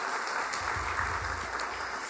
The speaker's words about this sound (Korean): 우리 한번 격려의 박수를 한번 하시겠습니다.